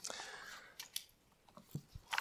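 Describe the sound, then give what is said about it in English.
Thin Bible pages are turned as a sermon's listeners look up a passage. Soft papery swishes mix with a few crisp ticks, faint and uneven, without speech. “Turn your Bibles with me to 2 Peter.”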